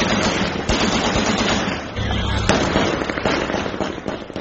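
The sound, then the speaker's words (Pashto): Celebratory gunfire and fireworks over Kabul at night: a loud, dense crackle of rapid, overlapping pops and bursts that runs without a break from start to finish. “تیره شپه د کابل په ګڼو سیمو کې د خوښۍ ډزې شوې او اورشیندونکي پټاقې هم هوا ته پورته شوې.”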